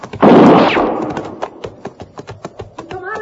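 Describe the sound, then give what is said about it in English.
Rifle shots fired at a shack in a dry wash: a loud opening blast gives way to a rapid series of many sharp, fainter cracks, with a voice starting briefly at the very end. “I found a woman who appeared to be in her middle 30s busily firing a rifle at a shack that stood some 100 yards beyond me.”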